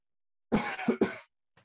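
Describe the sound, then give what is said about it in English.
Coughing and choking from a man who is talking: a few harsh, rough bursts in quick succession, with a brief faint catch a moment later. “Excuse me, just choking there.”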